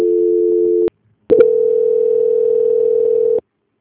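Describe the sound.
Telephone call transfer tones: a steady low-pitched tone for about a second, a brief silence, then a longer continuous tone of about two seconds that stops abruptly, with no talk.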